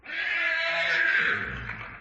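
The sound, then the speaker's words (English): A horse neighs in one continuous whinny, a bright, strained, harmonic call that holds for most of two seconds and then trails off. “just to remind you what a horse sounds like, a horse sounds something like this.”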